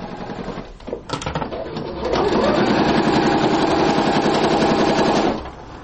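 Sewing machines stitching medical gowns in a workshop give a rapid, rattling mechanical whir. It starts as short uneven bursts, settles into a loud, steady run of about three seconds, then stops abruptly.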